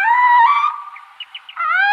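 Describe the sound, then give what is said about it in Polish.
A female tawny owl calling: a loud, drawn-out, harmonic wailing screech that holds, drops away briefly with a few faint chirping notes, then returns strong. “Głos samicy puszczyka przypomina trochę taki głos zawiedzionej żony”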